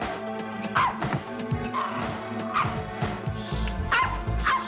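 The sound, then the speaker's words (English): Small white dog barking on a back stoop: a few sharp, high yips and barks with whiny edges, spaced irregularly over a low background rumble. “A small dog on it barks.”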